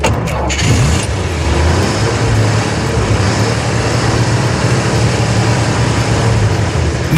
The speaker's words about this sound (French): C'est le bruit d'une voiture, vous avez compris. Donc c'est pas une mobylette, c'est pas une moto, c'est une voiture.